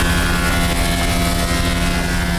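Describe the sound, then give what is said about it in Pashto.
Steady machine drone from a woodworking machine cutting wood for doors in a carpentry workshop: loud, unbroken hum with a constant low tone and broad noise, holding level without pauses throughout. “دا هم د نجارۍ یو فابریکه ده چې په کې په ماشین لرګي رکیږي او د دروازو جوړولو لپاره برابروي.”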